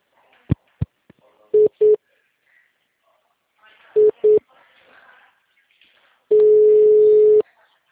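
Telephone tones during a call transfer: a few faint clicks, then two pairs of short steady beeps separated by a pause, ending in one longer sustained tone.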